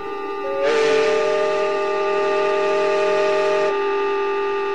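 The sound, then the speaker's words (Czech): A steamboat's horn sounds as the steamer arrives from Le Havre in fog near a lock: one loud, steady blast lasting about three seconds over a continuous lower drone that runs through the whole clip. “A přijíždí párník z Lávru.”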